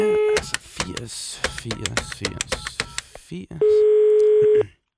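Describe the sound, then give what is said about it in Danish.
Telephone tones from a call to a telephone company's free service number: a short steady electronic tone at the start, a voice talking in the middle, then a longer steady tone before silence. “Vi ringer til det gratis servicenummer.”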